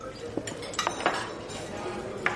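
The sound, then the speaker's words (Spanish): Faint clinks of a plate and cutlery as a plate is picked up and salad is passed at a table: a few light clatters and taps over a soft background. “Le coge el plato. Le pasa su ensalada.”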